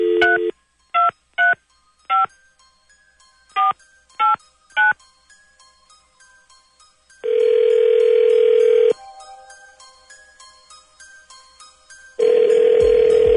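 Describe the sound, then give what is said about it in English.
A telephone being dialed: seven short touch-tone beeps in an uneven rhythm, then two long, loud ringing tones separated by a quieter pause. “Dialing at random.”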